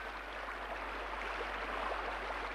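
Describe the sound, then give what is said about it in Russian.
Heavy rain pours in a steady, even hiss with no distinct drops or pauses, heard alone at a low level. “Ну и льет. Я в самом деле весь промок.”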